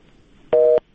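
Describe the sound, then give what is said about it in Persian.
A phone busy tone after a caller's line was cut off: one loud, steady dual-pitch beep lasting about a third of a second, rising abruptly out of faint line noise and stopping just as sharply, with no talk. “متاسفانه تماس از شنونده ما قطع شد.”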